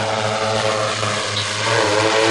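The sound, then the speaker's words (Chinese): A drone's propellers whir as it lays a safety rope onto a high-voltage power line during high-altitude maintenance work. The buzzing hum is steady, loud and unbroken throughout. “用无人机将安全绳固定在导线上。”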